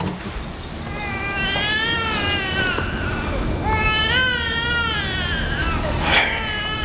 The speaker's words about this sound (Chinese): 你看这小妞在咱们这儿啥时候哭成这样了？